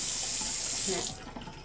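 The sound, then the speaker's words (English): Running tap water at a sink while hands are washed, a steady hissing rush that fades somewhat toward the end. “Wash your hands. You gotta wash hands.”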